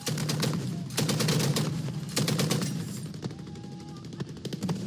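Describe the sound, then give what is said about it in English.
Heavy machine guns fire in rapid bursts as pro-government forces fight near a Yemeni port city, loud clattering volleys with brief gaps, then sparser, scattered shots toward the end. “That's the sound of pro-government forces firing heavy machine guns near Hodeida Thursday.”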